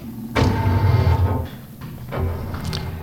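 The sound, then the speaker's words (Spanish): A locked door is tried in a radio drama, giving a loud mechanical whirring rattle that eases off and then comes back in a second burst. “¡Abran la puerta! La puerta estaba cerrada con llave.”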